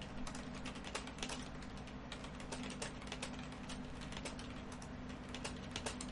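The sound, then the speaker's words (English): Typing on a computer keyboard produces many soft, quick key clicks in an irregular, continuous rhythm. The sound is quiet throughout. “let me type your question first”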